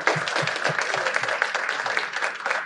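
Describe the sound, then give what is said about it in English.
Applause from a libertarian event audience greets a speaker, made of brisk overlapping claps with low, regular thumps pulsing through a dense, even clatter from start to finish. “We could stand to learn a lot from him, so let's give Brian a warm welcome.”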